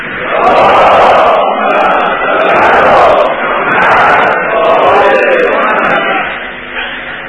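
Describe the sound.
Gathered crowd reciting the salawat blessing in unison: many voices joined in loud, sustained chanted phrases that swell and ebb several times before tapering off near the end.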